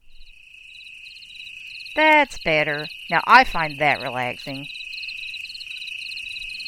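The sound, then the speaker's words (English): Crickets chirping in a country night soundscape played through a small smart speaker, a steady, high, rapid trill with faint pulsing chirps above it. A man speaks briefly over the chirping. “I hope it gives you some idea and you can hear all the crickets.”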